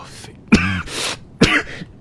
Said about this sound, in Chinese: 贤德帝摔开折子咳了起来，待稍微缓和后，他也恢复了寻常。